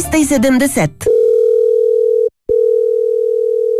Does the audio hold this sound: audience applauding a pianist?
no